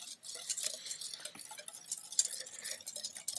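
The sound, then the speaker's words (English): A whisk beats milk and powder in a bowl, making a quiet, steady stream of rapid scraping and ticking strokes with no voices. “A nice fun sound of hearing a whisk.”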